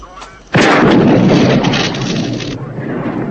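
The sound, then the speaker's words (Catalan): A single gunshot fired at a police radio: one sudden, very loud blast that flows into a long, rough, rumbling decay lasting about two seconds before fading into quieter noise. “Dispara a la radio.”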